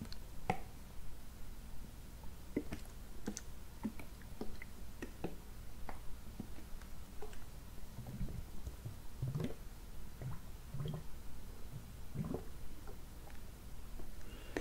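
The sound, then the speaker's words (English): Mouth-rinsing sounds with Listerine Teeth & Gum Defense mouthwash in an ASMR session: soft, wet swishes, squelches and scattered quiet clicks over a faint steady hiss. “I'm going to just rinse your mouth, inside your mouth, with this.”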